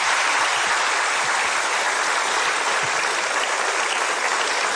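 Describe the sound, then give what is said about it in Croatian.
Dense, sustained applause from an audience paying tribute to the late musician Darko, steady and unbroken from start to finish. “Pa evo jedan pljesak, evo i za njega.”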